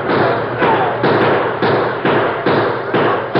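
A rapid, evenly spaced series of sharp gunshots from a Western-style radio drama shootout, several loud, punchy bursts in steady rhythm with a dull, muffled, band-limited tone.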